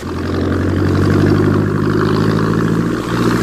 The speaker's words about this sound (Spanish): Sin mucho esfuerzo, para horror de Eva, el hombre pez pone en funcionamiento el motor de la lancha.